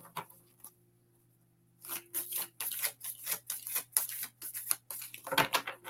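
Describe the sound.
Stiff oracle cards being shuffled: a faint rustle, a short lull, then many rapid, crisp flicking and snapping bursts that stay fairly quiet.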